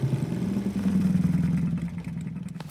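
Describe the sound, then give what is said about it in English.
A motor scooter putters in with a low, buzzing engine drone and quick pulsing beats, then eases off and quiets toward the end as it parks. “Shortly after Grammy left, Little Red came along riding her scooter.”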